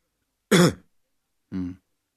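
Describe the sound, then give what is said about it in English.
A patient coughs twice on request during a medical examination for a hernia: a sharp, loud cough, then after a pause a second, shorter and softer one, with silence around them. “Give a cough, please. Again, please.”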